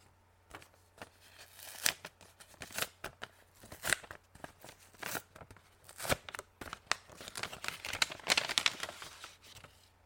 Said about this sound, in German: Und du hast recht, auch heute können wir gemeinsam einen Brief öffnen. Dieses Mal kommt der Brief aus Russland.